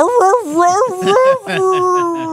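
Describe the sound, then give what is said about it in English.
A man's voice imitates a dog for a video game dog character, giving several wavering, howl-like yelps and whimpers whose pitch bends up and down in quick vocal bursts. “Rush, there's a person doing dog sounds, and he goes”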